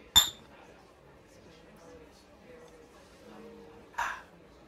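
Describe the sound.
Two bright glass clinks from a toast, one at the start and one near the end. Quiet low murmuring fills the gap between them.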